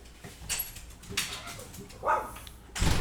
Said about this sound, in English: oh, it's the doggy wants to go outside